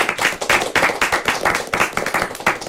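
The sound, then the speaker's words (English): A studio audience applauds with brisk, distinct hand claps in a fast, fairly regular pattern at a moderate level. “And thanks to today's studio audience. Give yourself a hand.”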